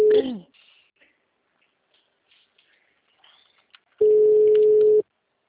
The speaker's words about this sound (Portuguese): Nós estávamos nos falando, a ligação caiu.